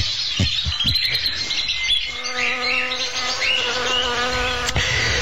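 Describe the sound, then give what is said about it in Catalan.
Insects buzzing in a steady, droning hum with layered harmonic tones, continuous and fairly loud throughout, with no voices present. “Els insectes no són tan perceptibles, malgrat acompanyar els seus cants i els seus afanys amb instruments de reforç adequat.”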